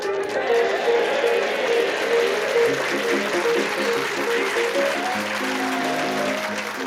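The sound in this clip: Chopin's Minute Waltz plays as a theme tune. Quick, running, repeated notes move in a lively pattern, steady in level and set over a broad wash of applause-like noise.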